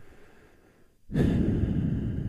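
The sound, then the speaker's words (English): Deep breathing into a microphone: after a moment of near quiet, a loud, rushing, breathy exhale starts abruptly and holds steady to the end. “Who's deep breathing over there?”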